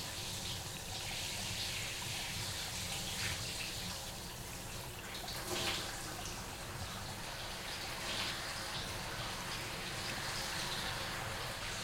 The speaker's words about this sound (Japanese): お湯出るから暑かったら言ってね